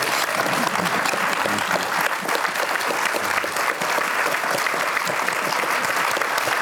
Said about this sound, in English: I'd like this audience, all of you, just to really give a great hand of appreciation to Peter and Ann.